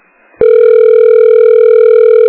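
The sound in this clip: Telephone ringback tone while waiting for the call to be answered: after a brief quiet moment, a single loud, steady electronic tone starts abruptly and holds without a break.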